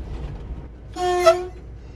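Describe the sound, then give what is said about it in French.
A short horn toot from a tourist train on its last descent into a station, a single bright tonal blast of about half a second over the low rumble of the moving train. “On passe juste à côté du panneau gare, ça veut dire qu'on arrive bientôt. Voilà, nous sommes presque arrivés en gare d'Ambert.”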